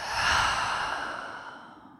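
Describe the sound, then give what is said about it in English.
A deep, slow breath during a guided breathing practice, heard as one long, airy whoosh that starts strong and gradually fades over about two seconds, alone with no talking. “we'll take one more full breath in and one more full breath out.”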